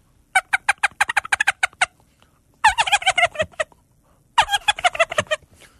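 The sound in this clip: Turkey gobble sound effect: three loud, rapid rattling bursts of gobbling separated by short pauses, with no talk over them.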